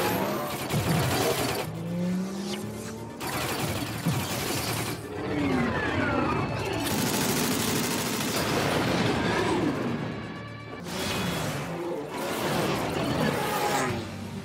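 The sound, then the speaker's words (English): A space battle between ships with gunfire roars without a break. It is a dense, loud mass of rumbling noise with sweeping tonal whooshes and clattering, shattering bursts, and no talk is heard. “Now Thor gets in the Grandmaster's party ship and takes off. Insert epic Star Wars battle between ships.”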